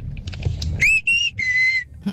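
A person whistles in imitation of a mother calling her child home from the park: three clear, high, loud notes, the first sliding upward, the second short and level, the last held longest, with faint noise before them.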